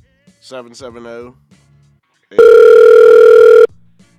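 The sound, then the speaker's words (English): A ringback tone plays on a call-in phone line as one steady, loud, mid-pitched tone of a little over a second. It follows a brief stretch of talk. “it's calling back again. I can hear it ringing in my headphones.”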